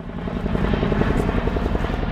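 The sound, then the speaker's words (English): A Chinook twin-rotor helicopter flies over an airfield, giving a loud, continuous low rotor thumping and engine roar that stays steady throughout. “that was a Chinook helicopter, a twin-rotor helicopter that just flew over the Shelton airfield”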